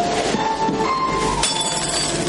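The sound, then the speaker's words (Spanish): Glass shatters as an empty wine glass is thrown to the floor: one sharp, bright crash midway through, heard over a steady background of sustained tones. “Ella arroja su copa vacía al suelo.”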